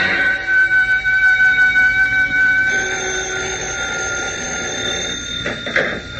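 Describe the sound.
A telephone ringing in the middle of the night gives a steady, shrill electronic tone with a pulsing start. Partway through it changes to a different pitch pattern and continues without any voices.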